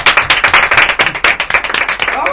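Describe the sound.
Applause from a small group answering a call to clap for everyone: quick, uneven claps, each clearly separate, keeping up a lively, fairly loud patter through the short stretch.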